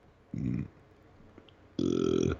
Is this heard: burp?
yes